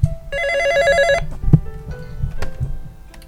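A telephone rings with an incoming call: one loud burst of rapid, warbling electronic tones about a second long, followed by quieter clicks and handling bumps.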